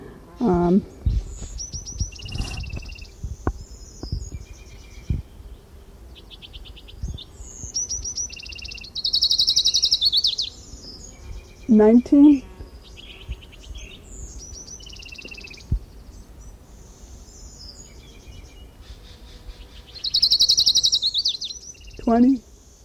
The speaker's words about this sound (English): This is Orange Crown Warbler number 6 continued.